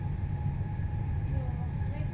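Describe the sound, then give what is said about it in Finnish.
Steady low rumble inside a moving passenger train, a continuous droning noise with no distinct events, even in loudness throughout. “Olen ensimmäistä kertaa junassa koronapandemian alkamisen jälkeen.”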